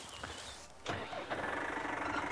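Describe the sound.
A car engine starts with a sudden onset, then runs in a steady, even drone for over a second. No one talks. The car is being driven out to catch a slow-moving bull following its herd of suckler cows.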